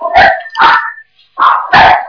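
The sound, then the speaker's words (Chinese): A dog barking loudly and sharply, four barks in two pairs separated by a brief pause. The barks are heard alone, with no talking. “你们家这个狗怎么这么厉害？”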